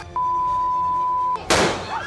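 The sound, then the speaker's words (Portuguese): A sharp gunshot bang rings out as police fire during a crowd disturbance. One loud burst follows a long, steady electronic beep and trails into noisy commotion. “Polícia atira aqui, hein? Polícia atira aqui, hein? Polícia atira.”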